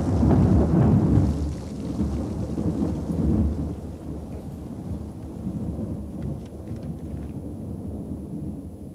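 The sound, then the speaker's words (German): Rolling thunder on a stormy night with a hiss of rain. The deep rumble is loudest at the start, then eases into a steady, lower roar that continues to the end. “schmetterte ein Blitz nieder, straßenweit die stürmische Nacht erhellend. Hinter ihm krachte er, als risse er den ganzen Himmel mit sich heran.”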